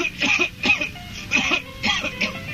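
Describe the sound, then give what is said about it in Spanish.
A person coughs in several harsh, raspy bursts in quick succession, loud and alone, with short breaths between them. “y déjate de toser.”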